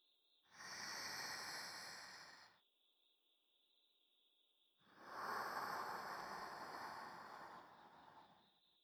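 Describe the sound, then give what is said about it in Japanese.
Deep breathing during a guided breathing exercise: two long, slow breaths separated by a quiet pause, the second one longer, both soft and airy over a faint, steady high tone. “それじゃあまた、私に続いて深呼吸をしてみましょう。”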